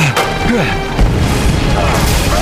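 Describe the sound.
An explosion from a plastic explosive bursts with a sudden boom and a rush of broad, rumbling noise that carries on to the end. A narrating voice talks over it.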